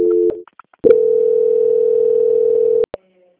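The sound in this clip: A steady telephone line tone plays while a call is transferred to a bank's quality-control department. A short tone breaks off, then after a brief pause a single even tone holds for about two seconds and stops abruptly.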